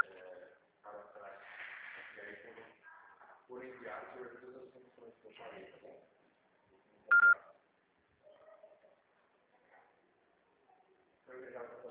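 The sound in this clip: A single brief, bright telephone keypad tone sounds once as a call is being placed, surrounded by steady conversational talk before and after it.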